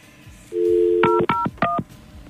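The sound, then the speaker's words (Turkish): Three clear dual-tone keypad beeps as a telephone number is dialled, each short and evenly spaced, following a steady low dial tone. “Arıyorum efendim bekleyiniz lütfen.”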